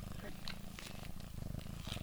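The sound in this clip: Cat purring while being held and cuddled, a low, steady rumbling vibration that continues throughout under a person talking.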